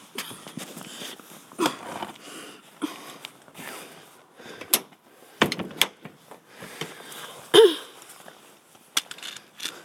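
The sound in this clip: Door being opened, with scattered clicks, rattles and thumps spread unevenly over several seconds, mostly faint, and a few sharper knocks standing out.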